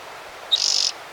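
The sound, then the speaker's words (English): A bird calls outside: a single brief, high-pitched trilled chirp with rapid pulses, heard alone over faint background hiss. “Seven. Maybe two birds out there. Eight. Nine. No, one bird.”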